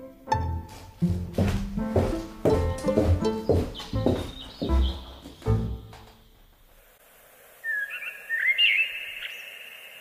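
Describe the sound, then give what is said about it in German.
Blackbirds sing on an April evening, a few high fluting phrases that come after several seconds of louder percussive knocking. “Im grünlichen Licht eines Aprilabends flöteten Amseln das alte Triumphlied des Lebens.”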